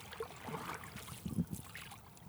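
A canoe paddle dips and pulls through water as a few soft splashes and gurgles rise over a quiet, steady wash. A brief, slightly stronger burst of strokes comes just past the middle.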